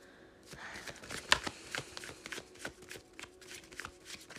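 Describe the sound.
Tarot cards being shuffled and drawn: a quick run of soft, papery flicks and slaps with one sharper snap early on, quiet and without talk.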